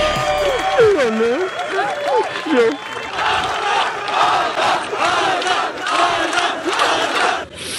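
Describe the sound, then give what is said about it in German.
Fans cheer a runner finishing his run in Los Angeles. A single voice speaks briefly over the noise at first, then the crowd erupts into loud cheering and shouting in repeated surges. “ist dann ins Ziel gekommen, und zwar in Los Angeles. Und da haben ihn einige Fans erwartet. Hör mal.”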